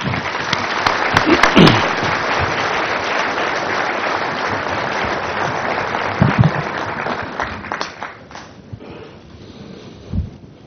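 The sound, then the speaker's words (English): Audience applause welcomes the opening speaker of a Forum Club season event: a dense, sustained clapping that holds steady for several seconds, then thins out and fades toward the end. “let's please give a big Forum Club welcome to our 28th season opening speaker, Mr. Jim Clifton.”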